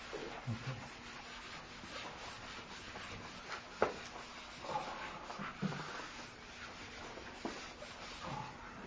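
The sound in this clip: Faint rubbing and scraping of writing being erased from a board, in short irregular strokes with brief pauses between them.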